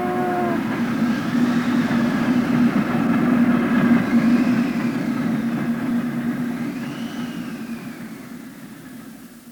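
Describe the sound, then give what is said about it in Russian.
A train rushing past close by gives a loud, steady rumble with a droning hum that holds evenly and eases slightly toward the end. No voices are heard. “Светлые квадраты окон поезда пронеслись почти у моего плеча.”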